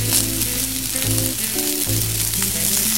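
Vegetables and rice fry in a pan with a continuous crackling sizzle, steady and fairly loud throughout.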